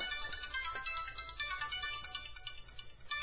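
A phone rings with a faint, dense electronic ringtone, a busy pattern of repeating tones that continues steadily and unanswered, with no talk over it.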